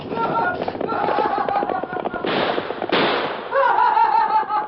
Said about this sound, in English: He shot at us.